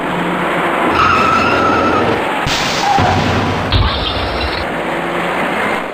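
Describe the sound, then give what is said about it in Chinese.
Cars skid and crash in a chain rear-end collision in the innermost lane of Beijing's busy Fourth Ring Road expressway near Zhongguancun Third Bridge, a loud continuous roar and screech punctuated by a couple of heavy impact thumps. “行驶在前面的车辆已经稳稳地减慢了行驶速度，可从后方开上来的几辆车却因为采取措施不及，接二连三地追撞在一起。”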